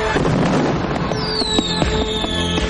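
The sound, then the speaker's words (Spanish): Fireworks explode in a rapid run of crackling bursts and sharp pops, with a thin whistling streak sounding over the dense noise. “Se gira y apunta hacia los fuegos artificiales que muestran luces de color rojo, azul y blanco. Los fuegos acaban en una enorme explosión de luz”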